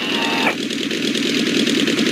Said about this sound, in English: You take the throttles and I'll take the controls. Bring it back to 1500. Flaps down, 20 degrees.